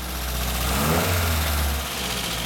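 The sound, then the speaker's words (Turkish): A car engine runs smoothly after a spare spark plug is fitted, no longer shaking: a steady mid-pitched hum over a low drone, swelling slightly in revs near the middle before settling back to an even idle. “Tam zamanında ben ikinci motor testine dönüyorum. Tamam, hadi deneyelim.”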